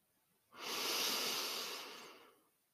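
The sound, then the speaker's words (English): A single long, steady breath drawn in during a relaxation exercise: a soft, airy hiss that swells quickly, holds for about two seconds, then fades, with no talking. “We're going to breathe in”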